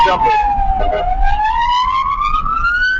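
An ambulance siren wails behind a pickup truck that will not pull over. One loud, continuous tone dips lower during the first second, then climbs slowly and steadily to a higher pitch.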